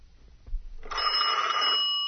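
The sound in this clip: A telephone rings with a loud, steady electronic tone that starts about a second in and holds to the end, after a brief low thump and near-quiet opening.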